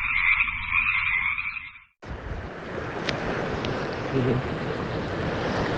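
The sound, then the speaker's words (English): A frog's buzzing croak trills steadily for about two seconds, then cuts off abruptly and gives way to a loud, continuous rush of surf-like noise. “Rod the Frog.”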